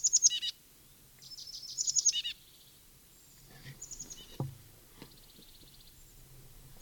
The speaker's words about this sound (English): Junco or titmouse trill down draw.